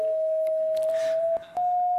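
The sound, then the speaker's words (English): Electronic tone from a head-worn color sensor, rendering the color of grass: a steady, mid-pitched continuous tone that briefly drops out near the end, then resumes slightly higher. “For example, this is the sound of grass.”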